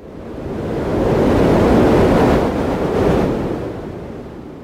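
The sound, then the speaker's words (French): A large ocean wave crashes onto a ship's deck, a broad, loud rushing roar of water and wind that swells, eases slightly, then surges again before fading a little, with no voices. “Alors une vague bien plus violente que la première apparut sur le flanc du vaisseau.”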